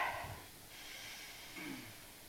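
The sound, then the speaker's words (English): A slow, deep breath drawn in, soft and airy, a faint hiss of air. “So let's take a slow, deep breath in.”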